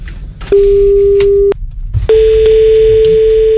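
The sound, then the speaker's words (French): Ringback tone of an outgoing telephone call: two long, steady, mid-pitched tones with a short gap between them, the second running to the end, loud over a low rumbling background. “Je pense qu'on va l'appeler parce que je pense qu'il nous attend. Allons-y, c'est reparti. Vas-y. Ça sonne, c'est parti.”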